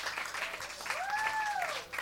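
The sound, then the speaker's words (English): Audience clapping as a performer is introduced at a live show: steady, dense applause throughout, with a rising-then-falling whistle cutting through the middle. “Can y'all start clapping right now? Start clapping right now for my boy, Yodoye Travis.”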